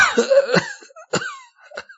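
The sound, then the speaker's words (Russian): A man's voice acts out an old man coughing: a strained, voiced start followed by a few short, rough, hoarse coughs, each separated by brief silences. “Старик закашлялся.”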